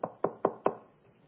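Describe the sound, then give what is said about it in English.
Knocking on a door: four sharp, evenly spaced knocks with a hollow thud, then fading to quiet. “In the book of Revelation, Jesus stands at the door and knocks.”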